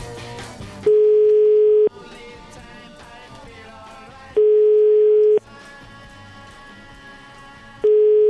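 Telephone ringback tone heard after dialing a restaurant to book a table: two steady, single-pitched beeps of about one second each, separated by long gaps, with a third beginning at the end, over a low continuous background.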